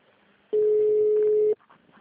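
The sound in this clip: One clean, steady telephone tone lasting about a second during a call transfer, set against faint line hiss, with a few soft blips after it.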